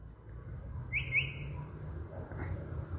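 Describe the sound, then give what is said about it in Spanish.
Chalk-browed mockingbird singing and imitating other birds: a few short, high whistled notes, faint against a steady low rumble. “Es un mimus. Está copiando, está hablando distintos lenguajes. Calandria, mimus saturninos.”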